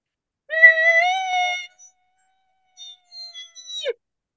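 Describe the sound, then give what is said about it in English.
A latex-reed elk cow call blown with hissing air gives a high, nasal squeal. A sustained, wavering tone lasts about a second, then a few shorter, higher chirps follow and end in a quick downward slide. “So if you put the reed on your tongue, this in the middle, then literally hiss that air, you'll get this sound.”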